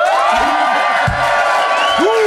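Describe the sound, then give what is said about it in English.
A studio audience cheers and whoops at a mock-trial debate vote, a steady loud roar of crowd noise with high shouts and whistling cries rising above it throughout. “please applaud now”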